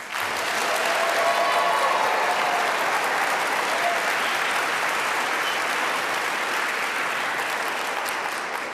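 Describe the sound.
An audience applauds to welcome a 17-year-old local cellist from Westford, Massachusetts. Dense, even clapping holds steady for about nine seconds and eases off slightly at the close.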